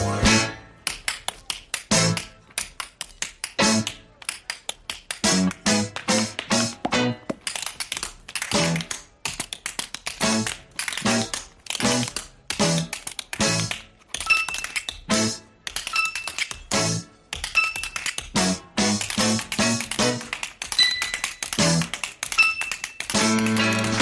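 Rapid tap dancing: many crisp, sharp taps of shoes striking the floor in quick, lively rhythmic bursts with brief pauses between phrases, loud and continuous throughout.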